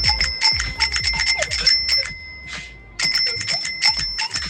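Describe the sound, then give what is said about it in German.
A bicycle bell in Münster is rung in two rapid bursts of bright metallic dings, with many quick strikes in each burst and a short pause between them. “ich dachte, zu Münster passt nichts besser als eine Fahrradklingel. Deswegen ist mein Sound von einer Fahrradklingel.”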